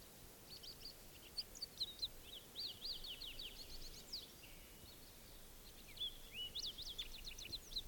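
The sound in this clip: A male bird calls with faint, high chirps and short trilling phrases, scattered irregularly over a low, steady background hiss.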